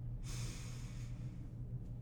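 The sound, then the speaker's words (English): A deep breath drawn in during a guided relaxation exercise: one soft, airy rush lasting under a second, fairly quiet, over a faint steady low hum. “one more time, taking a big, big deep breath in”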